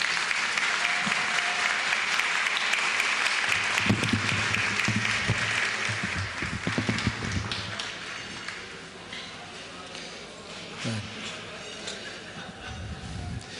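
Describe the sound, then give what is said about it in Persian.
Audience applause at an evening gathering rises as sustained, dense clapping, then gradually thins and softens, with a brief swell of claps late on. “حالا هرچی میخواد برش دست بزن.”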